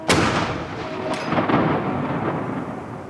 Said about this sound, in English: and gunfire, one a minute from the city's iconic castle.